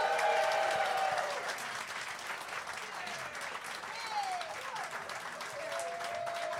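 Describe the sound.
Audience applause and cheering welcome a UK comedian guest, a dense, continuous wash of clapping that is loudest at the start and then eases slightly, holding steady to the end.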